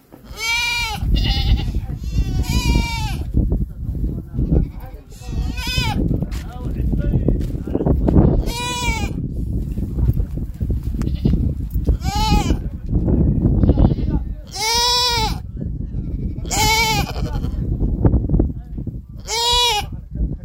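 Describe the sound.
Goats and sheep bleat many times, loud and wavering, at a livestock handout to needy people, with talking running steadily underneath.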